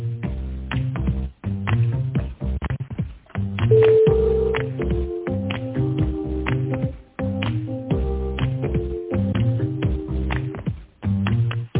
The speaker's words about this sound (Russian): переведу звонок на специалиста. Как? Оставайтесь, пожалуйста, на линии.